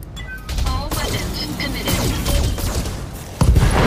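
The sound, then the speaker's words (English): Mech weapons in a video game fire all at once at a Shadowhawk mech in a loud, dense barrage of blasts and booms with metallic whines, ending in a heavier burst. A voice talks over the barrage. “It's gonna cost us a lot of heat, but it's totally worth it. And then we'll just fire everything at the Shadowhawk all at once.”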